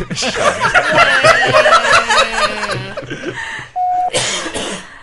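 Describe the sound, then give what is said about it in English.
Hard, breathy laughter with rapid harmonic bursts runs for several seconds, then a short steady tone and a single sharp cough follow after a brief pause. “I laugh so hard I cough.”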